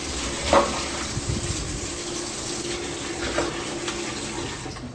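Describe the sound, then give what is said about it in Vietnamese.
Running water with a couple of brief splashes as boiled pomelo peel is drained and dropped into cold water, the flow steady and moderately loud. “Ta dắt cái này cho ráo, mình thả vào cái phần nước lạnh bên đây.”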